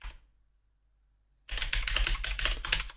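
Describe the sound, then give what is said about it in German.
Typing a note on a computer keyboard: a near-silent pause, then a quick, steady run of many crisp key clacks continuing to the end. “Ich muss hier noch was auf meine schlaue Liste schreiben.”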